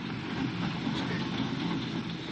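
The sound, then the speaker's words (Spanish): A train halts at a small rural stop, its dense rumbling noise steady and unbroken, without clear clacking rhythm or voices. “El tren para ante el apeadero.”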